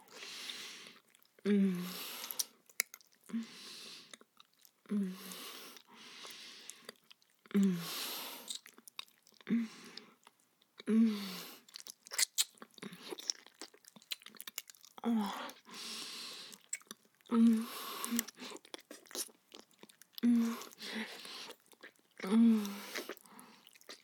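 Someone chewing and eating food: soft, wet, crunchy mouth sounds repeating at a steady pace, fairly quiet and close, with brief pauses between bites.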